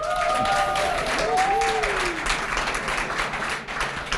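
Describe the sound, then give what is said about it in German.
Dense, steady audience applause for a men's choir, the Männergesangsverein from Gessungshausen, at a festive Christmas event, with a few gliding whistle-like tones in the first two seconds. “Für die auch mal einen Riesenapplaus.”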